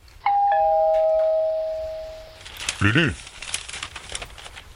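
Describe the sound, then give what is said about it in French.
A doorbell rings with a two-note chime: two bright tones start close together and ring on for about two seconds as they fade, and a brief voice-like sound follows. “on a sonné.”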